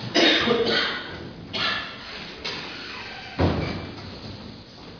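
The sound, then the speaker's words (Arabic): A door being shut during a lesson to keep outside noise out, heard as a few dull knocks and thuds with rustling between them, the loudest at the start and another sharp one later. “اقفل بقى اقفل لنا الباب ده عشان تأتي لنا أصوات من الخارج.”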